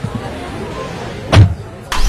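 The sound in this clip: A person climbing into a car: one dull thud of the door shutting partway through, then a brief burst of noise at the end, over a low, steady background rumble.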